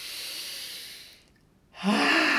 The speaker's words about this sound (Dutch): Voel maar als je diep ademhaalt.